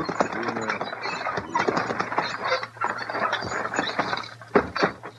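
A team of horses pulls up at a barn, with clip-clopping hooves mixed with rattling, clanking mechanical noise, busy and fairly loud.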